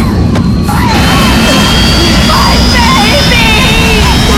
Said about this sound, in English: the hovercraft is about to plow into all her fine work and her